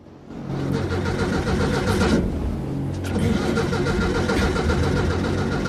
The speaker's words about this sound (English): She tries to start the yacht's engine, then notices the fuel gauge is on zero.